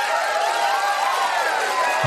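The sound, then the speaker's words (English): Crowd cheering in a radio studio for a listener, a continuous, bright roar of massed voices that stays even in level from start to finish. “Trenton, let's give you some cheering.”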